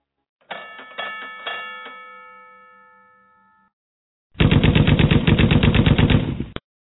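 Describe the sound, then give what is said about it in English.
AK assault rifle gunfire comes as a rapid automatic burst of many shots lasting about two seconds. It follows a few ringing, bell-like chimes that fade into silence. “What's all that noise? What's going on? We got a motherfucker. You got an AK in the building? Yeah. Yeah, I heard it.”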